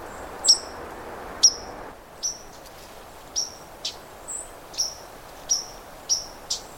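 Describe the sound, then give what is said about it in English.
A white-throated sparrow gives its alarm note: a series of sharp, high, very short chips repeated at uneven intervals over a quiet background. “There's a kind of a throaty chip. You can still hear the white-throated sparrow, but the throaty chip,”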